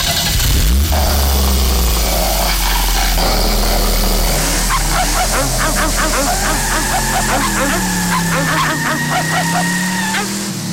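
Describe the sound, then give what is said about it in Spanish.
Dogs bark and yip as a car engine starts and runs. A loud, low engine rumble fills the whole stretch, and a rapid run of repeated barks stands out over it in the second half. “si entras en tu vehículo mientras los caninos están cerca, mientras no conduzcas, no te dirán nada. Pero desde que enciendes el motor,”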